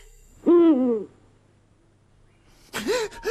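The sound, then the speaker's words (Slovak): An owl hoots twice: a loud, long wavering hoot, then after a pause a second, breathier hoot at the end. “Ale som sa zľakol. No a to iba sova húka.”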